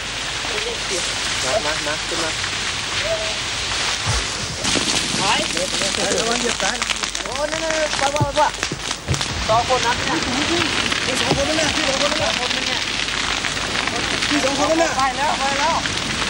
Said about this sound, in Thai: ไฟในคืนนี้ค่อนข้างจะรุนแรง